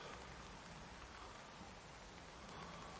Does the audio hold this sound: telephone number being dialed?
no